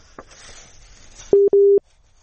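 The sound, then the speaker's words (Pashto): Busy signal on a faulty telephone line: two short, mid-pitched electronic beeps in quick succession, following a moment of faint hiss, then silence. “فکر کوو په ټلیفون لاین کې ستونزه ده”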